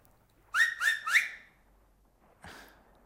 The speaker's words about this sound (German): auf meinen Fingern pfeife ich dreimal. So.